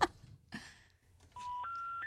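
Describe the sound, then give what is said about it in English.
Electronic telephone tones sound while calling a neighbor: after a few faint, scattered noises, a loud steady tone begins and then steps up in pitch twice, holding level to the end. “Okay, I'll call the neighbor on the left.”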